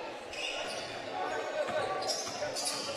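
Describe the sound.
A basketball is dribbled along the right wing during a game in the third quarter. Low bounces sit under continuous talk from a commentator.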